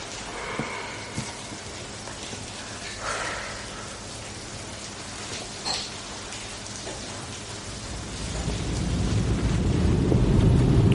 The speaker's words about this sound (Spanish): Ya no llueve tanto.